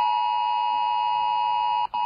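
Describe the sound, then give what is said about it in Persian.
A mobile phone emergency alert tone from a national public warning system: one steady, piercing electronic note held almost without change, with a brief break just before the end. “این سامانه هشدار جدید تلفن همراه است.”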